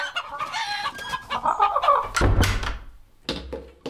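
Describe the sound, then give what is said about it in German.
Chickens clucking in a yard crowded with hens: many irregular, overlapping clucks and squawks in quick bursts, with a low rumbling thud partway through before the clucking resumes. “Hier ist ja alles voller Hühner.”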